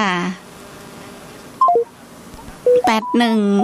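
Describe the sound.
Telephone keypad dialing tones while calling back a dropped line: short electronic beeps in two quick groups of a few, set between a woman's talking.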